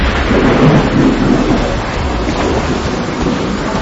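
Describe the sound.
Thunder and pouring rain of a storm at sea battering a two-masted schooner, a loud, continuous rumbling roar with heavy hiss and no pauses.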